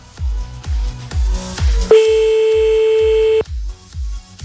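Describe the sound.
One long, steady telephone ringing tone sounds for about a second and a half on an unanswered call. It sits over a regular, deep thumping beat that carries on before and after it.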